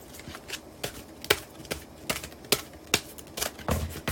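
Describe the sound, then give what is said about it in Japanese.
Oracle cards being shuffled during a fortune-telling session make many crisp, irregular snapping clicks that repeat in quick bursts, with no talk. “今カード切っております”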